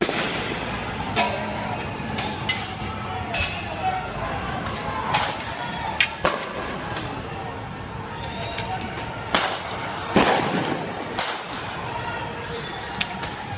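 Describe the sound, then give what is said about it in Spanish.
Many sharp cracks from Venezuelan Bolivarian National Guard tanks firing on crowds in the streets, spaced irregularly over a dense, steady background din. “Bien, esta es la Guardia Nacional Bolivariana con los tanques disparándole a un pueblo que está desbordado en las calles”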